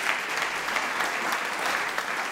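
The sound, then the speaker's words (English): Audience clapping at a talk about a charity bike-building project for foster kids, a dense, even wash of many hands that holds at steady loudness throughout. “I know, you can clap, that's fine.”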